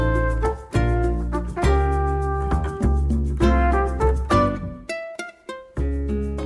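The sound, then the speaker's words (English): Soothing music from the Nintendo Switch video game Animal Crossing: New Horizons: plucked, bell-like notes over soft bass in a relaxed, bouncy rhythm, each phrase ringing and gently decaying. “That was the sound of Animal Crossing New Horizons, a new Nintendo Switch video game that is absolutely blowing up right now”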